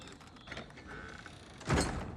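A club door closing: a faint creaking, scraping mechanism, then a louder dull thud near the end, quiet overall.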